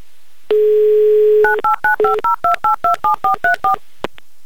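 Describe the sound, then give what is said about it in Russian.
A telephone number being dialed: a steady dial tone for about a second, then a quick, even run of short touch-tone keypad beeps at shifting pitches, followed by a faint click. “И если вы себя узнали, то прямо сейчас мы будем звонить вам.”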